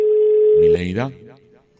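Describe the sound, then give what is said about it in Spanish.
A telephone tone sounds while a radio station redials a caller. A single steady mid-pitched tone holds for under a second, then a voice starts speaking over it and the tone fades to a faint trace. “Sí, vamos a volverle a marcar.”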